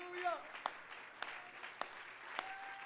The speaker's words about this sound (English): Let's all stand and clap our hands for the word, shall we?